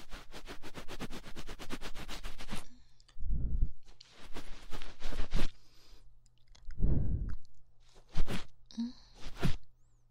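Chewing of sweet and sour candy, with rapid crackly mouth sounds at first, then several separate moist bites and chomps in irregular bursts, fairly quiet with no talking.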